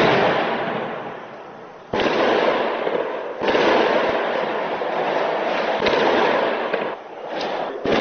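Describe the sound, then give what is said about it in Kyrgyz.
Gunfire and explosions during a pre-dawn police raid on terrorism suspects: several sharp, loud bangs, each trailing into long roaring noise, dense and continuous with no voices. “Рейдтин жүрүшү ок атышуулар жана жардырлар менен коштолду.”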